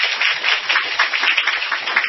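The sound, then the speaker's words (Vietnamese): Applause from a Buddhist audience during a Dharma question-and-answer talk, a thin, uneven patter of many quick claps that pulses in small surges throughout, with nothing else heard. “Thành ra là chúng ta tán thán cho cổ một tràng pháo tay nữa.”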